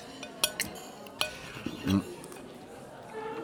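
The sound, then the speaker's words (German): Three plates of cold roast meat are set down and wine is poured, giving a few sharp crockery and glass clinks and a brief soft splash, all quite faint. “brachte drei Teller mit kaltem Braten und schenkte Wein ein”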